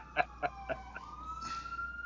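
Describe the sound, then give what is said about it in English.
Emergency vehicle sirens wail faintly in the background: sustained high tones with a few pulsing bursts, one tone gliding slightly upward, and no voices over them. “I'm sure you hear the sirens.”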